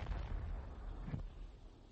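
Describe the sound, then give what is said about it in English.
Faint, deep rocket-launch throb of ground-to-space interceptor missiles fired into orbit: a steady low rumble that swells briefly near the middle, then slowly thins. “The wind brought the throb of rocketry from the south. Ground-to-space interceptor missiles being fired into orbit.”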